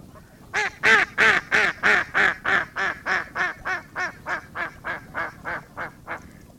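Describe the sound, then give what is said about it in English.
A female mallard duck quacking in a long, steady series of loud, evenly spaced quacks that gradually grow fainter toward the end, with no other sounds. “The female mallard is the only one that actually quacks, and it sounds like this.”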